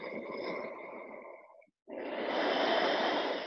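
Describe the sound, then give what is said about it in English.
Breathing during a yoga session: two long, steady, airy breaths of strong breath noise, separated by a brief silent pause, fairly loud with no voices. “Breathe in.”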